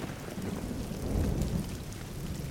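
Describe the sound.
A thunderstorm brings steady, dense rain hissing on surfaces over a deep, rolling rumble of thunder that swells briefly midway, with no voices.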